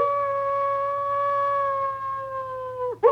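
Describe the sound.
A human voice imitates the pained yowl of a wolf-like woman stabbed through the chest with a stake. It is one long, steady, mid-pitched wail that dips at the end, then a short, harsh vocal burst.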